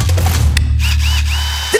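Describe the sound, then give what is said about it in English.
A power drill whirring with a steady, loud, low motor drone that runs throughout, joined by a brief sharper click near the end. “Drill.”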